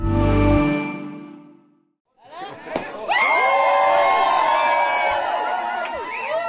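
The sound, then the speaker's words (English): Crowd cheering and shouting as families of hostages and people in Gaza welcome a ceasefire announcement: a dense, loud mass of excited voices and whoops that swells in after a short pause and holds steady to the end. “Is this what it sounds like when a war ends? The families of the remaining hostages and people in Gaza welcoming the announcement of a ceasefire”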